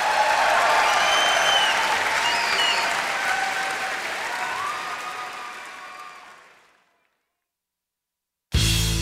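Audience applause and cheering for the Diaspora Yeshiva Band at a New York show: dense, steady clapping that fades gradually into silence, then a sudden loud sound cuts in at the very end.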